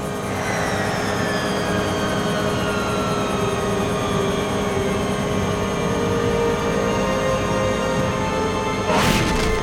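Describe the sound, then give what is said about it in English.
Engine roar of a flying craft landing on a ship's deck in strong wind. A loud, steady drone is laced with whining tones that glide slowly downward, and a brief louder burst comes near the end. “please prepare for landing on the deck of the Sven Ferkel.”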